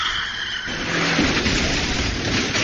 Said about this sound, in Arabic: ركب الجميع السيارة، وما أن ابتعدت عن والماس ببضع كيلومترات حتى هوى بها في منحدر سحيق.